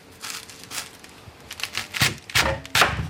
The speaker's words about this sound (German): Da habe ich jetzt die Stücke gerade. Dann tue ich das halbieren.